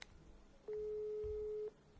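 A phone call ringing out produces a single long, steady mid-pitched tone lasting about a second. It stands alone over faint background hiss.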